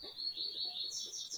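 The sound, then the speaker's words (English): Birds chirp faintly in the background on an island, a thin, high, near-continuous twittering line over a quiet low murmur. “I think I hear some birds in the background.”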